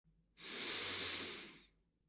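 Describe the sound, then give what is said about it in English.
A single slow, deep breath drawn in, heard as a soft airy hiss that swells, holds for over a second and then fades. It is quiet and stands alone with no talking. “Take a deep breath in.”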